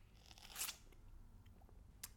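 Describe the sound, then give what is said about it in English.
A person sips a double-shot coffee: one short, airy slurp stands out early on, with a smaller, fainter one near the end. The rest is a low, quiet rustle with no talking. “Now, I do have a coffee here, so if you hear me sip like this,”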